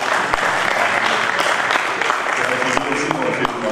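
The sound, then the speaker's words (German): Loud, dense applause fills a football press conference after a Thüringen Cup match between FC Meuselwitz and Carl Zeiss Jena, a continuous wash of clapping with a few sharper claps standing out throughout. “Ja, Dankeschön. Dankeschön für den Applaus.”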